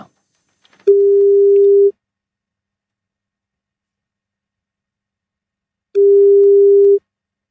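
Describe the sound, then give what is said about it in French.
Telephone ringback tone while a call is placed to a listener: two steady mid-pitched tones, each about one second long, separated by roughly four seconds of silence. “nous allons maintenant passer un petit coup de fil à un auditeur d'RTL qui se trouvait là la semaine dernière.”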